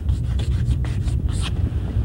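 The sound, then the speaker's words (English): A pen scratches across paper as an answer is written out, in a quick series of short, soft, scratchy strokes over a low, steady hum. “And here is the answer, and I'm going to write it out because it is rather important, this law.”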